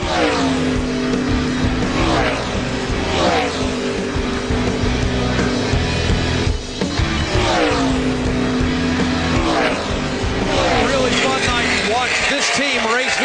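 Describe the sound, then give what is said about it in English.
A Toyota race car drives on a racetrack at night, its loud engine roar sweeping up and down in pitch again and again while a voice talks over it. “What a great job Truex has done behind the wheel of that Toyota tonight. For the final time now, down into turn three, in the middle of turn three, nice and smooth as he heads home.”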